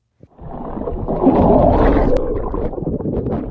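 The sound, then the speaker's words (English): A boat engine runs at sea off the coast of the Cape, churning through seawater. After a brief silence a loud, steady rumble and rushing water noise start and continue evenly to the end. “Hear that? It's the sound of seawater. A boat engine off the coast of the Cape.”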